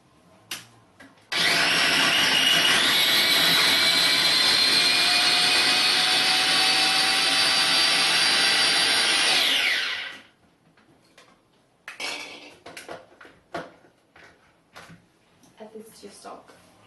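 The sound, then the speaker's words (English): A blender purees vegetables for soup stock with a loud, steady whirring roar that runs about nine seconds, its pitch edging upward, then cuts off. Speech follows after it stops. “I'm actually going to puree them and add them to the stock to give the soup a nice flavour. I'm just going to blend these.”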